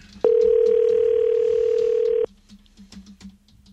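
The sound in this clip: A telephone dial tone sounds as a steady, loud single pitch for about two seconds, then cuts off abruptly, leaving only faint low noise and a few soft sounds.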